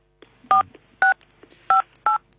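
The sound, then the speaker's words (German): Four short, evenly spaced dual-tone telephone beeps signal an incoming call on the line, each burst crisp and loud over a faint steady hiss. “Oh, da ruft anscheinend wieder jemand bei dir an.”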